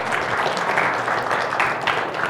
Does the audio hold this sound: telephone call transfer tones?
no